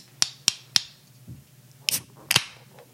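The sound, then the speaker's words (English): A water bottle being dropped gives sharp, hard clacks: three quick ones, a short pause, then two more close together. “With... the dropping water bottle.”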